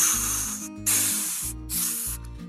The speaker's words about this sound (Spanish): vaya saliendo la presión del aire. Claro, la válvula de la olla express, de la olla de presión.